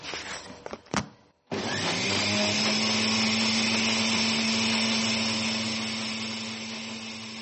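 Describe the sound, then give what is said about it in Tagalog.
A blender pureeing pineapple and ginger switches on after a few brief knocks, settling into a loud, steady whirring motor with a constant low hum that eases slightly toward the end. “Awwa, to yanzu gashi mun saka a blender.”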